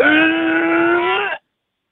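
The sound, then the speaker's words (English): A person's voiced, groaning exhale performed as a dying breath, a steady droning moan lasting about a second and a half before cutting off abruptly into silence. “More of a dying breath, that one.”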